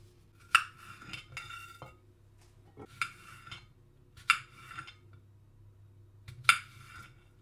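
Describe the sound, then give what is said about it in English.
A knife cuts up baking apples for a pie: a few sharp, faint clinks and knocks against the board, with softer scraping and handling sounds between them. “So I've just started to um, to cut up the baking apples.”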